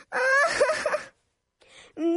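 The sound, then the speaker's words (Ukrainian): A girl cries with a loud, wavering sobbing wail for about a second. After a short pause comes a faint vocal sound, then talk begins. “що трапилось? Чого ти плачеш?”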